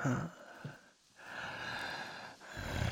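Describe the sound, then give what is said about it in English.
Low, breathy groaning with strained, gasping exhalations, strongest at the start and end, and a quieter stretch in between. “That groaning. All that pent up energy.”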